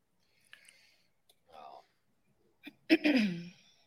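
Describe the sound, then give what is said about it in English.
A throat clearing: a short rough burst followed by a louder raspy, voiced rumble that trails off, preceded by a few faint soft mouth noises. “Oh, I cleared a throat.”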